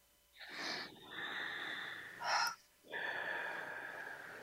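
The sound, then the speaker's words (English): Deep breathing during a guided breathing exercise, in through the nose and out through the mouth: soft, airy rushes of breath separated by short pauses, with no talk. “let's take in our three deep breaths, in through our nose and out through our mouth”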